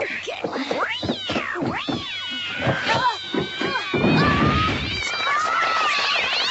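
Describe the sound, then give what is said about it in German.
A cat meows and yowls repeatedly as it is put into a magic box during a magic trick, its cries sliding up and down in pitch, loud and continuous with a rough, noisy stretch partway through. “Und nun achtet auf die Zauberschachtel. Jetzt die Katze hinein”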